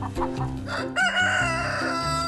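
Egg-laying hens cluck in short, bursting calls. Midway a loud, drawn-out crowing call rises over the clucking and holds to the end.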